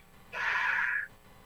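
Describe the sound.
A deep exhale during a guided breathing exercise: a single steady, breathy rush of air lasting under a second, heard alone against quiet background.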